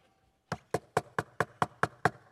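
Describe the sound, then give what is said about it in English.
Knocking on a door: eight firm, evenly spaced raps in a steady, insistent rhythm, each a sharp hollow thud, with no voices. “And you know what he's saying here? Start knocking.”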